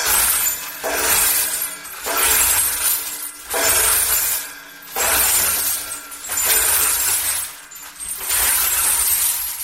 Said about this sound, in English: So you turn one crank basically to get the glass kind of moving around per bottle breaking.